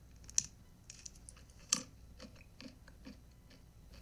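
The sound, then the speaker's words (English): Crunchy pretzels are chewed, with many sharp, irregular crunches and crackles, a few louder bites standing out over a quiet background. “It's a food, so just guess what kind of food. Pretzels. Ugh, this chomping.”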